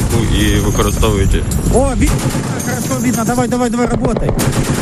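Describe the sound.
Rapid gunfire from an artillery unit shooting at a drone at night: dense, loud bursts of sharp shots run through the whole clip, with shouting voices mixed in.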